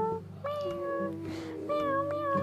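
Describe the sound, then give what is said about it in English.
A human voice imitates a cat, giving two drawn-out, tonal meows separated by a short breathy gap, fairly quiet and without other talk. “You're a kitty? Meow.”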